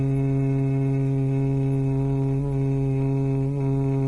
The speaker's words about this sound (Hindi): श्वास को छोड़ते समय गुंजन, बीच में श्वास को भरना है, अपने गति से क्रम से करें।